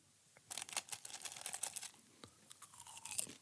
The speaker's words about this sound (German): esse jetzt noch ein bisschen Popcorn.